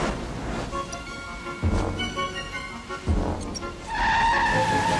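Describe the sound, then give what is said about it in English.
A car swerves and fishtails on a wet highway, engine surging with hissing tire noise in a few bursts before a sustained tire squeal takes over at the end. “When he turns back to his sleeve, the car swerves again, fishtailing on the wet road.”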